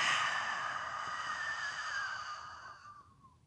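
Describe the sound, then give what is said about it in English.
A forceful breath-of-fire exhale pushed out through the open mouth from the belly with a softened throat: one long, loud, breathy rush of air that starts strong and thins away near the end. “So take a deep inhale here through your nose. Soften your back of your throat and let out that breath of fire.”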